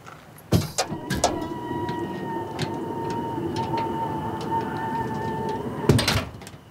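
A vehicle's cargo bed is opened: a few clunks and clicks at the start, then a steady whining hum, and another cluster of clunks near the end.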